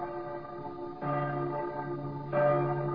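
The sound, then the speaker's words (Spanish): Church bells ring in the city of Quito: a rich, sustained metallic hum with layered overtones, renewed by two fresh strikes about a second apart, each swelling the tone before it lingers and decays, with no voices. “San Francisco de Quito, cuando las campanas tañan”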